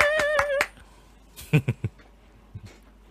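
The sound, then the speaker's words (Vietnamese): A few sharp hand claps from a livestreamer, three in quick succession followed by one fainter clap, after a short tonal sound at the start. “Vỗ tay.”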